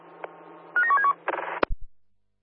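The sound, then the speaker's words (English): Telephone tones signal an incoming phone call on a radio net: a brief warbling two-pitch ring, then a second buzzy burst, a sharp click and a couple of low thuds before silence. “CSA Cosmos, Alpha. CSA Cosmos, Delta 2. Can you take a phone call, please?”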